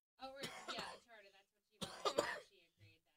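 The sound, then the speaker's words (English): Quiet coughing from a person with a lingering cough comes in two short clusters of harsh, throaty bursts separated by a pause, with softer breathy throat sounds trailing off at the end. “I'm coughing up a storm, which is why I keep turning my microphone off. I still have that cough.”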